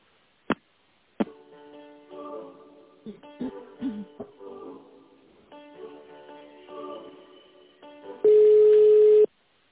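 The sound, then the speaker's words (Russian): Telephone line tones play while a call is transferred: two sharp clicks, then a long stretch of quiet melodic hold tones, ending with a loud, steady electronic beep. “Так, ну давайте я вас соединю с Татьяной. Может быть, она в курсе. Сейчас, минутку.”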